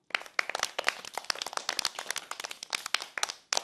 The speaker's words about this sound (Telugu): Claps కొట్టేయండి మరి.